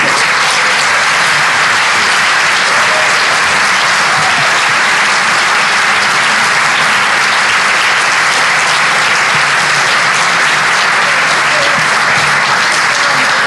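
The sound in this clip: Sustained audience applause welcoming speaker Charlton Heston after his introduction: a dense, even wash of many hands clapping that holds steady and loud for the whole stretch without a break.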